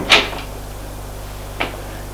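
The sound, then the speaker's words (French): Two brief, sharp knocks on a door, spaced more than a second apart, over a faint steady background hum. “On la frappe à la porte.”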